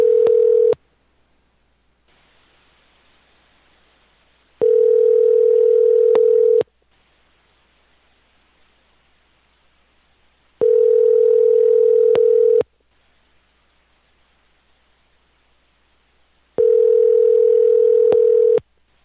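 A telephone rings out on an outgoing call: four steady single-pitch tones about two seconds long, the first cut short, each separated by roughly four seconds of silence.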